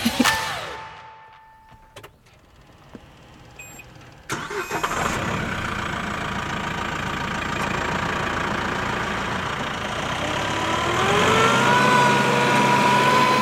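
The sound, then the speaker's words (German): A mowing machine's engine starts after a near-quiet stretch, then runs loud and steady as it drives off up a dike to mow, its engine tone climbing and growing louder toward the end. “So, und jetzt fährt er los. Und rauf auf den Deich. Und jetzt wird losgemäht.”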